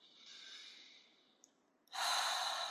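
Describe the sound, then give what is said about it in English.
Slow, relaxed breathing in and out during a calming exercise: a soft, airy breath that gradually fades, a short quiet gap, then a louder, breathy rush of air at the end. “close your eyes, settle in, just take some nice breaths in and out.”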